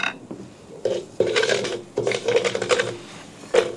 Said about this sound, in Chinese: 香味一出就可以放入炒米，你看滋滋冒泡